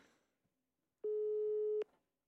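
A single telephone tone sounds as a call is placed to a friend for help with a quiz answer. The plain mid-pitched beep is loud and steady, held under a second, then cut off with a click.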